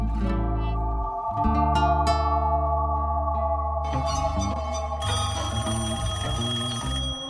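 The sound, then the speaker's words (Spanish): A telephone rings loudly and continuously, mixed with sustained musical tones, during a radio station segment. “suena el teléfono rojo”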